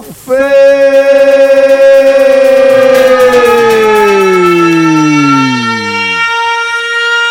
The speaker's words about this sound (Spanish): 5, 4, 3, 2, 1. Sirenas